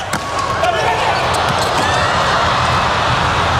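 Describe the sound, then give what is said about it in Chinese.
A table tennis ball is served straight down the line in a Japan match, giving a few sharp, light clicks as it bounces under a commentator's steady talk. “李永贞发球，发直线”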